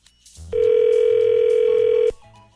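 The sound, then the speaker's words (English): A steady electronic telephone tone sounds while a call is transferred to another line. It holds one unchanging pitch for about a second and a half and then cuts off, with quiet line noise before and after. “Hang on 1 second. I'm going to put you through to her line, okay?”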